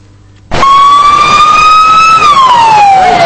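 An emergency vehicle siren at the rescue after a metro train derailed in a tunnel in Valencia, Spain, bursts in loudly after a quiet moment, holds a steady wail, then slides downward in pitch.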